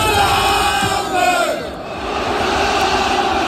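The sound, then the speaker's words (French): Football supporters chant at the Stade Vélodrome in Marseille during an Olympique de Marseille Europa League match against Benfica: a loud, sustained wall of massed voices singing together, dipping briefly midway before swelling back to full strength. “Écoutez l'ambiance à Marseille au stade Vélodrome.”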